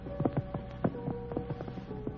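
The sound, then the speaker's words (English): Horses are led into a stable, with many uneven hoof clops on a hard floor, faint against a soft background hum. “Just someone bringing horses into the stable.”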